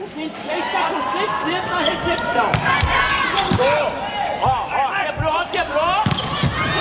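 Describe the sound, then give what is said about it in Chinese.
Volleyball serve followed by a light spike during a match between South Korea and Thailand, with a veteran player serving. A few sharp ball strikes cut through steady crowd noise while voices talk throughout. “老将车英硕来发球，”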